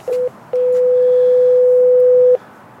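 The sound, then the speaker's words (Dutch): A doorbell rung at the entrance of a depot: a short flat tone, then a long steady tone of the same mid pitch lasting nearly two seconds, then silence. No one talks. “Oké, we bellen aan.”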